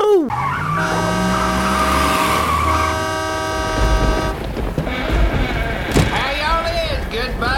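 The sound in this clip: A big rig truck drives up with tires skidding: long, loud screeching squeals over a deep engine rumble, shifting into rougher scraping noise toward the end.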